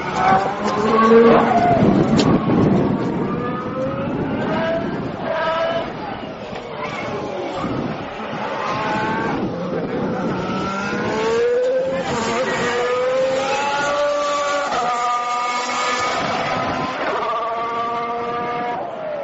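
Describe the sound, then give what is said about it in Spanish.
The 2014 Formula 1 Ferrari of Fernando Alonso runs on track: a loud, sustained engine drone whose layered tones repeatedly climb and drop with the revs through the gears. “Ya están aquí los Fórmula 1 de 2014 en la pista y este va a ser nuestro sonido durante todo el año. No nos gusta demasiado porque son sonidos mucho más apagados, pero así suena el Ferrari de Fernando Alonso.”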